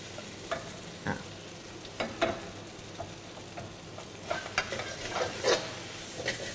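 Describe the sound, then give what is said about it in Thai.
Bean sprouts stir-fry in a pan with a steady soft sizzle, broken by many light scrapes and clicks from stirring at an uneven rhythm. “เดี๋ยวจะผัดถั่วงอกตัวนี้ให้มันสลด”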